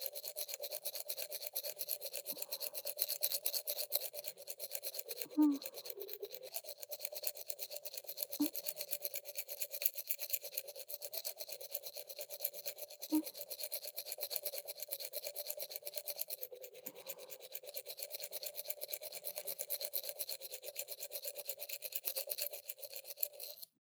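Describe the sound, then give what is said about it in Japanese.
A toothbrush scrubbing another person's teeth: a steady, fast bristly rasp that runs on without a break, with a few faint clicks scattered through it and no voices. “こうやって、あなたの歯を私が磨くようになったのって、いつからでしたっけ？”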